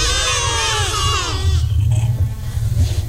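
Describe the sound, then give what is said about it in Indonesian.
Goat bleating: one long, loud, wavering bleat with a quivering, nasal tone, then a stretch of low rumbling noise. “Suara kambing.”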